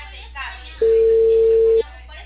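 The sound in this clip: A telephone call tone heard while dialling: one steady, mid-pitched tone lasting about a second on a narrow phone line, with faint voices before and after it.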